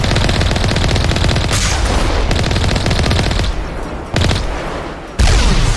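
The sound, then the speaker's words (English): Video game gunfire aimed at distant rocket attackers: loud, rapid automatic shots in a dense, continuous stream, broken by a few brief gaps and shifts in intensity. “I'm just kind of vaguely shooting at where the rockets were coming from.”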